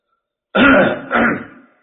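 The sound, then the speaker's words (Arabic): A man clears his throat in two rough bursts, a longer one then a shorter cough-like one, loud and alone with no talk. “كحه الشيخ هذه زينت خلاص نبدا”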